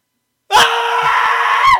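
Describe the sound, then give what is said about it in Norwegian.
A person shouting as loud as possible: one very loud, sustained yell of over a second that bursts in abruptly after silence and cuts off sharply. “Hvis du roper nå, så høyt du kan, så kan jeg se hvor høyt det ble.”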